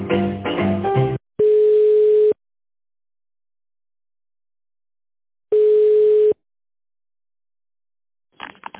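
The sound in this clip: A telephone ringback tone sounds while a call is transferred to a secretary: after a brief voice prompt come two steady, mid-pitched tone bursts of about a second each, separated by several seconds of silence.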